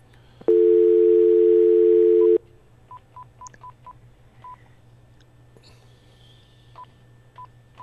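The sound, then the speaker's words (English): Telephone keypad dialing: a steady dial tone holds for about two seconds, then a series of short, clipped touch-tone beeps follows with brief gaps, clear and alone. “Okay, here we go. Dial.”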